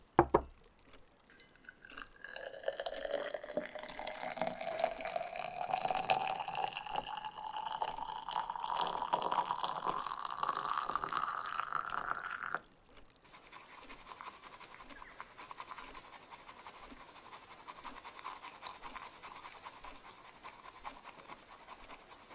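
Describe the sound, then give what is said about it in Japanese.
Water pours for about twelve seconds with a tone that climbs steadily as the vessel fills, then matcha green tea is whisked with a quieter, rapid and even scratchy brushing that continues to the end. “なら、早速、このお茶、立てていきますね。”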